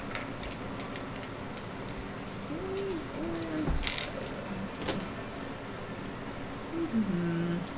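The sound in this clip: Dice rolled for damage during a Pendragon tabletop role-playing session, a few sharp clattering clicks scattered over a steady background hum, with faint voices at times.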